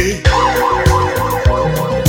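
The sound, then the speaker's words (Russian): A wailing siren somewhere in the capital swoops up and down in a repeating pitch pattern, loud and steady over a regular heavy beat of musical accompaniment. “А где-то в столице все воют сирены.”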